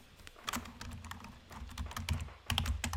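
Typing on a computer keyboard: a rapid run of many crisp key clicks with uneven rhythm and a few louder strikes, over a faint low hum, with no voices.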